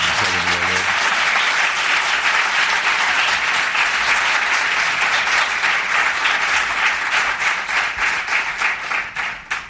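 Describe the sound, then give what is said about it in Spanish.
Warm applause from an audience welcomes a radio journalist being honoured with an award. A brief voice opens it, then steady, full clapping builds and runs on before thinning into separate claps near the end. “yo creo que Iñaki podría recibirlo con un cálido aplauso,”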